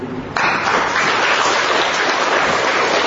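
Loud hand clapping from a church audience: dense, continuous applause that starts abruptly after a brief quieter moment and stays strong and even to the end.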